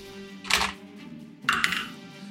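Dice clattering across a table during a tabletop role-playing game, with two short, bright rattling bursts about a second apart over a quiet background.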